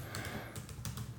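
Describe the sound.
Typing on a computer keyboard: several soft keystrokes in an irregular rhythm, faint over a low steady hum.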